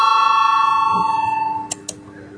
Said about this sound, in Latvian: Lūdzu zvanu, balsosim par 87. deputāta Valaiņa priekšlikumu.